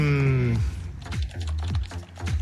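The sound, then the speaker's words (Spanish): Computer keyboard typing, a quick run of crisp key clicks in an uneven rhythm, fairly loud and without any talk. “Disculpen a los que estoy escribiendo.”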